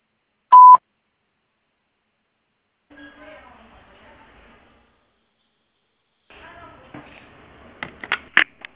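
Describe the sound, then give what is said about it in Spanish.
A voicemail system gives a single short, steady beep before recording starts. After a pause, a person begins speaking. “Si desea, deje su mensaje en la casilla de voz. Después del tono, grabe su mensaje.”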